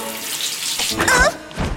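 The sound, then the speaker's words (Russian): Shower water running in a steady, broad hiss of spray that stays fairly even throughout, with a slightly busier, splashier patch toward the middle. “Просто решил принять душ после этих волнений.”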